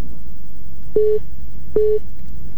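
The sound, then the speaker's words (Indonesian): A telephone busy tone sounds after a call cuts off: two short, steady beeps at a mid pitch, evenly spaced, over a constant background hiss. “mana nih suaranya nih? Halo. Oke, coba lagi aja ya, terputus ini suaranya.”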